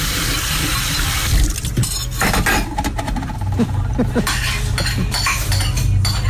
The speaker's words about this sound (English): Just going to do some washing up.